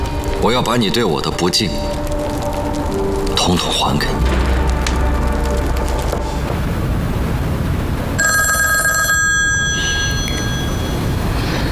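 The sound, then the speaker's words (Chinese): A telephone rings during a tense, threatening confrontation, a steady electronic tone with bright harmonics near the end that sits over dense, noisy background sound. “我接一下电话。”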